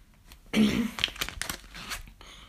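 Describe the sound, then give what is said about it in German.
Cards being put back in their old place make a papery rustle and scrape: a sudden burst of handling, then scattered softer slides and taps. “Warte kurz, ich muss hier noch kurz die Karten zurückmachen auf den alten Platz hier.”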